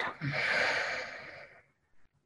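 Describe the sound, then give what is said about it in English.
One deep breath: a long, airy rush of breathing that swells and then fades over more than a second, followed by a brief faint puff of air. “So just take a deep breath in. Don't try to control too much, but just breathe in and breathe out.”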